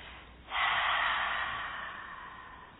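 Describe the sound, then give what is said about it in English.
A deep breath released through the mouth during a guided breathing exercise. One long, breathy exhale begins abruptly, then slowly fades, with no talk over it. “hold it for a count of three, and then release the breath through the mouth.”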